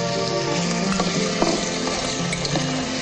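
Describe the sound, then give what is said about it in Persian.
Onion sizzling in a pan with meat added, a loud, dense, continuous frying crackle that holds steady throughout without pauses. “پیازو که کمی تفت دادم توی زخم میریزم و گوشت رو اضافه میکنم.”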